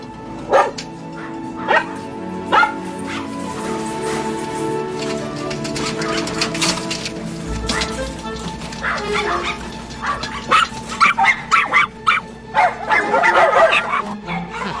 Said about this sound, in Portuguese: O que estão latindo? São cachorros. É claro que eu sei que são cachorros.